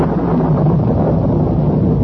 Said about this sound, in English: I'm alone tonight. Alone in the wind and storm.